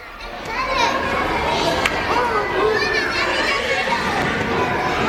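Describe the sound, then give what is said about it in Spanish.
Children playing in a school playground, a continuous, lively wash of many young voices chattering and shouting, steady throughout. “Le pusieron un sonido de juegos en el patio”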